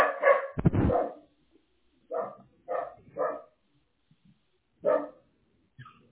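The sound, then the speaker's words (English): A dog barks, apparently at a delivery arriving, in a few sharp, irregular bursts: a rough cluster at first, then several short separate barks, followed by a faint final yip. “That's why he's barking.”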